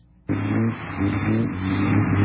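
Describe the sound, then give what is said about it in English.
A car drives by; its engine noise starts abruptly and then holds as a steady, low droning roar for about two seconds. “There's a car. There's another car.”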